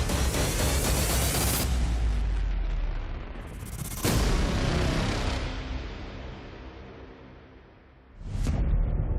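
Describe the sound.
Gunshots fired into a bucket of sand at a firing range. Three loud, sharp blasts spaced several seconds apart, each trailing off in a long, fading rumble, with no talk.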